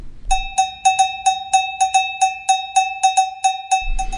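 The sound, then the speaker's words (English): A cowbell sound effect played from a podcasting app strikes many times in a fast, even rhythm. Each hit is bright and metallic with a short ringing decay, heard alone. “all these other sounds like the main ones I use, like cowbell.”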